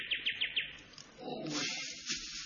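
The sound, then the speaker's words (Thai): Birds calling at sunset as they fly home to roost: a quick run of high, repeated chirps, then further bright calls and twittering over a soft, low background. “หมู่วิหกนกกาส่งเสียงร้องเรียกเพรียกขานพากันบินทลากลับรว”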